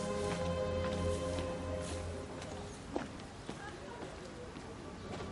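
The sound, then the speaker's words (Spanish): Slow footsteps walk between graves in a cemetery in a film scene, a few soft scuffing steps set low beneath a steady voice speaking over them. “avanza entre grandes árboles que delimitan un camino entre las tumbas. Camina despacio mirando cada sepultura.”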